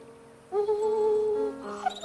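A dog whimpers with a drawn-out, steady, high whine, then makes softer wavering whines. No one speaks.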